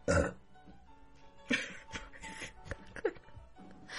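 A loud, coarse burp bursts out at the start, followed by a few quieter throaty sounds.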